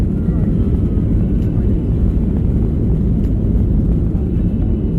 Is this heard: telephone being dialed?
no